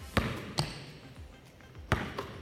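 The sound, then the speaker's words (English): A basketball in a bounce-pass drill strikes the floor in a few sharp, hollow thumps, each quickly fading, with uneven gaps between them. “Here we go, bounce pass. Boom.”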